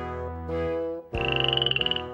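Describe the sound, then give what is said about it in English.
A green frog croaks in a pond. A low, droning call shifts into a loud, higher, rapidly pulsing croak that repeats many times in quick rhythm before stopping. “A green frog lives in the pond.”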